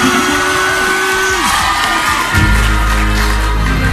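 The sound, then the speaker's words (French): A crowd cheers and shouts at a freestyle rap show, loud and continuous throughout. Partway through, a deep low drone joins the din. “Faites du bruit pour Yanis.”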